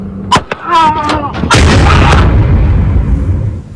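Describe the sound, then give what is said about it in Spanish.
Gunshots from a pistol fired during an argument between two older men and a son, heard as a few sharp, loud bangs followed by sustained loud, noisy commotion. “hasta que uno saca un arma, dispara, y la bronca terminó con un hombre muerto y su hijo herido.”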